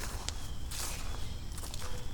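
Footsteps through grass beside a stream, a few soft, uneven steps with a light rustle and brushing of stems over a low, steady background.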